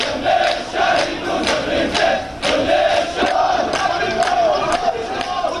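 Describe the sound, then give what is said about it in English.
A large crowd of mourners at a funeral procession in Palestine for four young men killed in the Gaza Strip and West Bank chants loudly in a steady, rhythmic cadence, with repeated shouted phrases rising and falling throughout. “The sound of mourning, the deaths of four more youths, in Palestine.”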